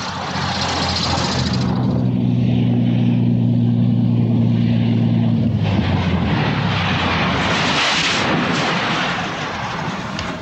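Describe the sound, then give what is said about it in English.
A propeller plane lands on desert sand. A loud, steady engine drone carries a sustained hum for about five seconds, then gives way to a broad, rushing roar. “Not far from a G-phone sensor, the plane lands on the desert sand.”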